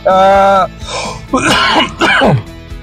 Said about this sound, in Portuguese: a minha tosse pega, né, gente? Vocês vão se acostumando com isso, tá? É a alergia.